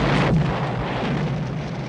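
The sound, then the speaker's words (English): A Cadillac car exploding in a scene from the film Touch of Evil: a sudden deep blast opens at once into a sustained rumbling roar that stays loud and thins slightly as it carries on. “the Cadillac explodes.”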